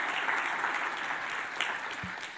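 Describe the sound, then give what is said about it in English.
Audience applause after a speaker shares about faith and caring for creation, a steady dense patter of many hands clapping throughout, moderately loud, with a brief voice near the end. “We give her a round of applause.”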